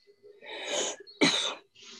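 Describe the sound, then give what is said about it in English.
Two quick, harsh coughs from a person, fairly quiet and separated by a brief gap. “cough, cough.”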